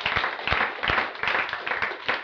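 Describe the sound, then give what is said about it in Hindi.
Applause for biscuits at a camp gathering: a short, dense burst of many hands clapping at once, holding fairly steady for about two seconds. “तो जोरदार ताली biscuit के लिए।”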